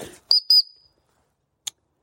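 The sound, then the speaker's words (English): Two short, shrill blasts of a dog whistle calling dogs back along a tree-lined path, each a steady high tone, the second trailing off briefly. “I'm just going to whistle my dogs back because I've gone a little far ahead here.”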